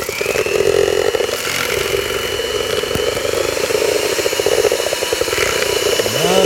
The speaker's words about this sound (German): Und die werfe ich jetzt mal in den großen Lostopf. das Ganze muss natürlich noch gut vermischt werden. Der Notar hat sich auch vom ordnungsgemäßen Zustand des Mischgeräts überzeugt. Und deswegen mischen wir das jetzt.